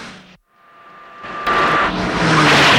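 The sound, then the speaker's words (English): Car engines roar as a green car chases a buggy along a desert road; after a short silent gap the engine noise swells steadily into a loud, sustained, harsh roar. “Some guards in a green car give chase along the desert road.”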